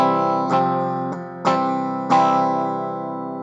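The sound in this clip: Electric guitar chords from a B.C. Rich Mockingbird played through its humbucker pickup in phase: a few struck chords, each ringing with a full, rich tone and slowly decaying, heard alone without talk.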